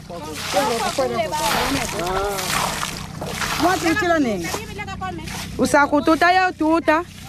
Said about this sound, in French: Donne-moi la bassine. Je vais verser de l'eau. On verse de l'eau ici.